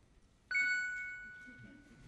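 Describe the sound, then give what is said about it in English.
A single electronic chime rings as the warning at minute six of a debater's seven-minute opening speaking time. It starts sharply with a bright, clear tone, then fades slowly, with no talk over it. “we will have a warning sound for each panelist as they approach minute six. It will sound like this.”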